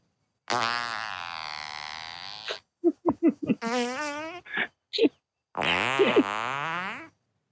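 Fart sounds played in a row: buzzy, wavering blasts. A long one opens, followed by a quick cluster of short bursts and a few more brief toots, then a final long, warbling fart. No voices between them.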